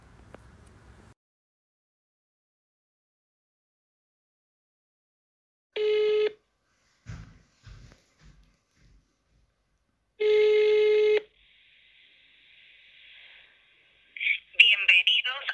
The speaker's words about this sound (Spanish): llamamos a los 0800 que se presentaban en la página del gobierno más de cinco veces cada uno, y en ambos casos la única respuesta que conseguimos fue silencio y una voz robótica anunciando que nuestra llamada será atendida a la brevedad